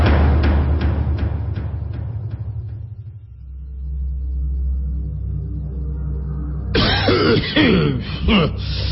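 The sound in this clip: A man coughs heavily and clears his throat in rough, harsh bursts, a few thick coughs toward the end after a stretch of low rumbling.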